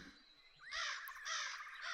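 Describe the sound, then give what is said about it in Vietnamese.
Crows, a flock startled from a nearby branch at dusk, burst into loud harsh cawing as they take flight: a few overlapping raucous calls in strong bursts with no voices. “bầy quạ vừa về đậu trên một nhánh cây nào gần đó giật mình bay lên kêu chói lói”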